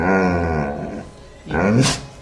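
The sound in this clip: A dog growls in two low, rumbling bursts separated by a brief pause, the second growl rising into a harsher snarl.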